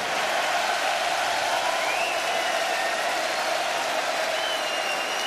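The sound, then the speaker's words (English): A concert crowd applauds and cheers for a rock band's road crew, a thick, unbroken wash of clapping and shouting that holds a steady level throughout. “So we'd like you to make as much noise as you can for the Judas Priest crew.”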